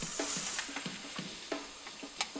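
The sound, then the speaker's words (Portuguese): Risotto rice being stirred into onion frying in olive oil in a pan: a run of short scraping strokes sounds in a loose rhythm over a steady, soft sizzle. “Envolvemos bem na cebola.”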